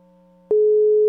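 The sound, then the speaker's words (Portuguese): A telephone busy signal sounds while a phone call is being placed: a low steady hum runs first, then a loud, pure tone starts abruptly about halfway and holds unbroken to the end. “Tá, deixa eu ligar pra ele aqui, peraí, só um minuto.”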